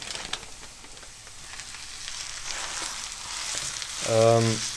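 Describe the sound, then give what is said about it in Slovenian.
Minced meat frying together with onion in a pan, giving a steady, soft sizzle and crackle throughout, with a brief low humming tone near the end. “In sedaj je čas, da dodam tudi mleto meso, ki ga bom sedaj skupaj s čebulo opražil.”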